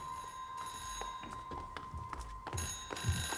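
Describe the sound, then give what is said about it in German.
A telephone ringing in a warehouse full of whisky barrels: a faint, continuous bright bell tone with a brief break near the end, under soft knocks and shuffling. “Da klingelt ein Telefon.”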